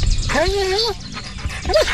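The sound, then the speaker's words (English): A dog whines in high, wavering whimpers, one longer and one short, while people talk over it. “A group of very good dogs.”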